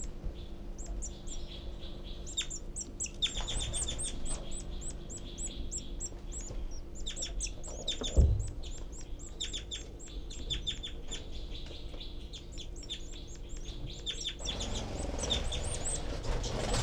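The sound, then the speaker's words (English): Nestling birds begging loudly in the nest: dense runs of high, rapid chirps continue throughout, broken by a single brief thump near the middle. “I can hear both babies and see them both furiously begging.”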